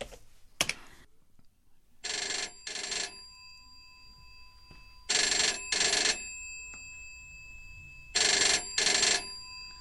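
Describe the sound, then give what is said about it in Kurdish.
A telephone ringing in three bright electronic double-rings, evenly spaced, after a sharp click near the start. “ڕۆڵە ئەو تەلەفۆنە بەرزکەوە من دەنگم دەرنایە.”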